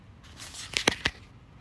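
Oracle cards are spread and handled for a ritual reading: a soft papery rustle with three crisp snaps of cards in quick succession, alone without talk.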